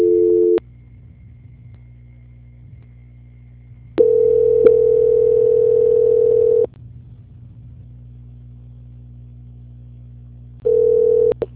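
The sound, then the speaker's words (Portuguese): A telephone line tone plays during a bank call transfer: loud, flat, steady stretches of tone broken by long quieter gaps of low line hum. “Só um instantinho, por gentileza, que eu já estou transferindo a ligação. Transferência.”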